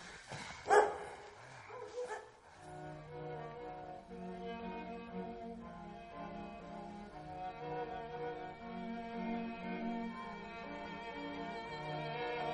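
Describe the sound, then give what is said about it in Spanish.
Dogs bark around a grave in a film scene, with a few sharp barks early on. Steady music then takes over and runs to the end. “Unos perros corretean alrededor de la tumba.”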